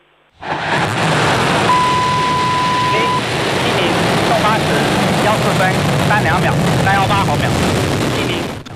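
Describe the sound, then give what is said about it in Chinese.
A Long March 7 Y11 rocket carrying the Tianzhou-10 cargo craft ignites and lifts off. A sudden broad, loud roar sets in and rumbles on steadily, with a brief steady tone early and voices over the thunder. “8时14分，长征七号遥十一运载火箭点火起飞。”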